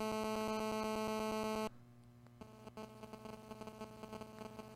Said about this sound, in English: Nope, that's old cell phones used to always do that. That's cell phone interference noise.